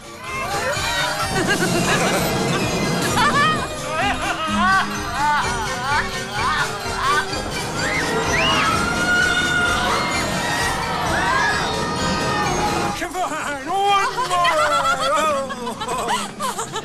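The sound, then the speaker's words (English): Screams of delight and crowd noise at a summer fairground with whirling rides, clowns and trick mirrors: many high squeals and shouts over a dense, steady crowd din, with a brief lull near the end before the shrieks pick up again. “Rides whiz around, people laugh at the clowns and the trick mirrors. Screams of delight resound in the summer air.”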